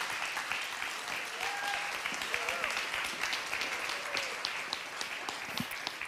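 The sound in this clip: Audience applause welcoming a speaker to the stage at a morning gathering just after a prayer, a steady wash of clapping that keeps a fairly even level throughout without breaking off.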